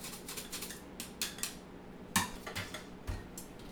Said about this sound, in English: So right now I'm just, I'm using my fine mesh sieve to put the potato starch in.